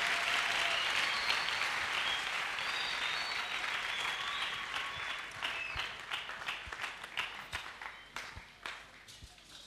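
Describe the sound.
Applause from an audience at a church service: dense, steady clapping that gradually thins toward the end into scattered, sharper individual claps.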